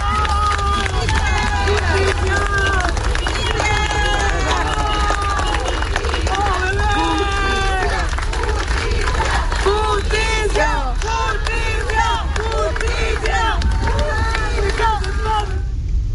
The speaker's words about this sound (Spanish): escuchábamos ahí un audio ambiente sobre la salida desde la funeraria Iván Martínez de el féretro que transporta el cuerpo de Alejandro Águila,